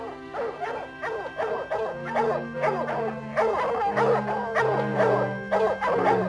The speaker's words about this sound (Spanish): Sujeten bien esos perros.